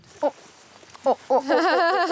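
A donkey calls outdoors in the wind while feeding, letting out a few short, nasal bursts before a longer, wavering, harmonic bray that carries loud to the end.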